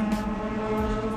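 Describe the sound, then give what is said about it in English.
A motorcycle engine drones as it runs past, a loud, steady, buzzing harmonic hum that holds for about a second with no talk. “I'm sorry, this is a motorcycle running past me.”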